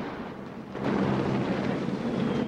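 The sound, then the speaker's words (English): Explosions shaking a building full of huddled children: a low, heavy rumble that swells abruptly early on into a loud, deep, sustained roar that keeps reverberating. “As the building reverberates from the explosions, dust falls from the ceiling, and lamps start to shake.”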